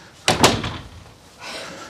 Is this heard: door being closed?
yes